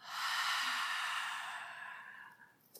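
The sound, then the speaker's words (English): A deep breath let out through the open mouth during a guided relaxation exercise: a single long, airy exhale that swells quickly, then slowly fades over a couple of seconds, with no talking. “Nice long inhale through your nose, fill up. Open your mouth and let it go.”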